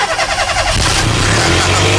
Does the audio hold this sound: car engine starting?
yes